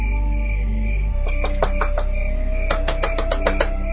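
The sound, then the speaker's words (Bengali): Knocking on a washroom door comes in two bursts of rapid, sharp raps, the second burst longer, over a steady tonal background. “কি করব knock করব। ওয়াশরুমে দরজা knock করা তো চরম অভদ্রতা।”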